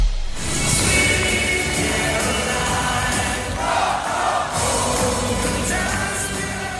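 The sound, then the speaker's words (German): A basketball crowd cheers after the team's first home win of the season, a loud, sustained roar of many voices that holds steady throughout with no break. “Ah, das klingt immer wieder schön. So klang das nämlich nach dem Sieg im ersten Heimspiel der Saison”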